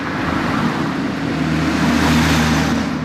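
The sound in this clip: Street traffic of combustion-engine cars, a steady low rumble of engines and tyres under a broad hiss that holds at an even loudness throughout, with no single pass standing out.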